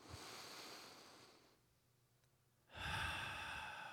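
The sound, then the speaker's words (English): A group breathes together slowly: a long, soft breath fades into a quiet pause, then a fuller, louder breath swells in and holds. “Spirit is breath. So let's just breathe together.”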